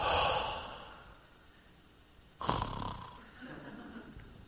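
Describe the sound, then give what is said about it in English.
Deep breath drawn in and let out: two breathy rushes of air, a fading one at the start and a stronger one after a short pause that continues more softly. “I want you to take a deep breath in and we're going to hold it and then we'll let it out.”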